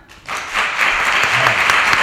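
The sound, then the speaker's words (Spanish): Studio audience applause during a radio applause-meter vote on Guardiola as Spain's national coach. The clapping starts abruptly after a brief quiet moment, then holds as a loud, dense, sustained patter. “Hay que decir que no ha aplaudido mucha gente, pero que ha aplaudido mucho tiempo.”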